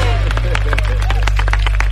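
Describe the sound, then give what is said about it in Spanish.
Applause for survivors of a tragedy: a brief, steady patter of clapping mixed with voices and chatter, loud throughout. “aplauso para los sobrevivientes”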